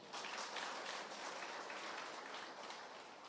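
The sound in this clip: An audience applauds during a Vietnamese Buddhist talk on repentance: continuous, dense clapping that starts abruptly and holds at an even, fairly loud level before easing slightly toward the end.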